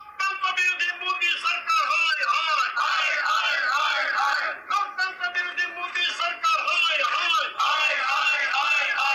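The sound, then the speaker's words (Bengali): Opposition protesters shout anti-government slogans at a sit-in by the Gandhi statue on the Parliament premises, forming a loud, sustained mass of yelling voices that dips only briefly. “এ সময় তারা বিভিন্ন লেখা সম্বলিত placard প্রদর্শনের পাশাপাশি গণতন্ত্র বিরোধী মোদি সরকার high high slogan দেন।”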